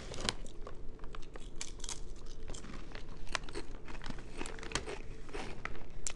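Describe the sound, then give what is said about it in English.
A bag of black truffle potato chips from Spain is torn open with continuous loud crinkling and crackling of the packaging throughout. “I brought the bag so that we can open it and have, you can smell the truffle as soon as you open.”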